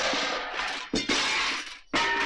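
Greenhouse glass panes shatter and shards rain down in three loud, noisy crashes in quick succession, with tinkling debris continuing between the bursts.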